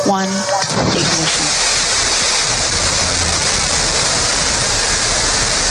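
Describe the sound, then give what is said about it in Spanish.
Roar of a Blue Origin New Shepard rocket lifting off in the desert. After a brief voice at the start, a loud, dense, rushing rumble surges in just under a second and holds steady to the end. “Un cohete New Shepard de la empresa espacial Blue Origin despega a gran velocidad.”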